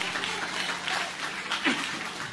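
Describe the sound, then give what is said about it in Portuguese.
Congregation at a church service clapping for Jesus: a fairly quiet, continuous wash of many hands with no single claps standing out. “Bate palma para Jesus.”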